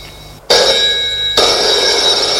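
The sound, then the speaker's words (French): A telephone rings at home: after a brief quiet moment, a loud, bright, continuous ring starts abruptly and holds steady to the end. “le téléphone sonne”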